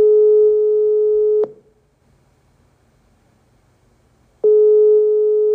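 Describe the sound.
A telephone ringback tone sounds while a call is being connected: a steady electronic hum-like tone for about a second and a half, a three-second silence, then the same tone returning.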